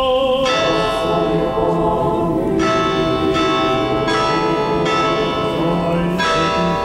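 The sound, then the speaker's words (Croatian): Church bells ring out from the Temple of Saint Sava in Belgrade, Serbia's largest Orthodox church, marking the start of a prayer gathering; deep, resonant strokes strike at a steady pace, each ringing on and overlapping into a continuous humming wash. “Zvona iz najvećeg pravoslavnog hrama u Srbiji označila su početak molitve”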